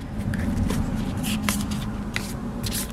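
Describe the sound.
Playing cards being handled at the start of a card game, heard as a series of soft, papery flicks and rustles over a steady background hum, with no clear talking.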